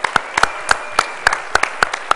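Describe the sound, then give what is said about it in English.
Crisp hand claps welcome a contestant onto a stage. The claps come sparse and irregular, many separate sharp slaps rather than a dense wash of applause, and no one speaks. “Give him a hand.”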